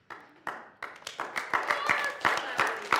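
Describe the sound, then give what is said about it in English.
Applause with many sharp, quick claps, growing louder and denser over the few seconds as more hands join, with voices mixed in. “I mean, do you hear that applause? I mean, do you hear that applause?”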